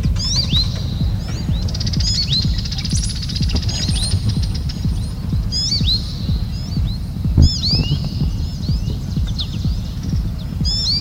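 A brown-headed cowbird perched on telephone wires gives its creaky, bubbling song. Thin, high chirps and twittering phrases recur throughout, heard over a steady, low, thumping rhythmic pulse.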